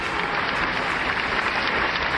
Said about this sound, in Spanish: parece que el aplauso, cuando no estoy en el estudio, el aplauso es más grande y más largo.